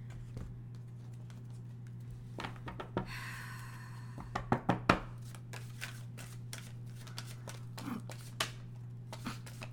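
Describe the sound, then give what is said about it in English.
Tarot cards being pulled and handled during a reading: papery slides and shuffling rustles, with a cluster of sharp card taps and snaps in the middle and scattered lighter flicks after, over a faint steady hum. “Okay, Leo, let's get into your reading. Actually, let me pull some of these cards.”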